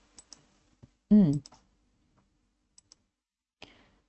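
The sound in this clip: Computer mouse clicks while formatting a table header in a spreadsheet, a few sharp, faint clicks spaced irregularly, with a brief voiced sound between them.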